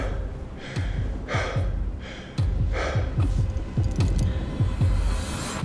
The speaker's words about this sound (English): I'm out of breath just standing up, so it's pretty serious.